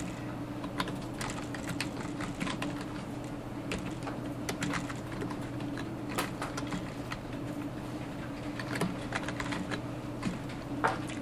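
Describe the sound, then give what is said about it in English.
Rapid typing on a computer keyboard, with many light key clicks in an uneven, steady stream over a low constant hum and no voices. “I type 15.”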